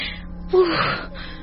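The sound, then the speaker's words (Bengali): A small child cries in distress, a short, heartbroken wail with a moaning, strained voice that swells briefly louder in the middle before easing back into a sobbing whimper. “কি কাঁদছে? একটা বাচ্চার গলার আওয়াজ না? মা গো, কেমন বুক ফাটা কান্না, বাচ্চাটার কষ্ট হচ্ছে।”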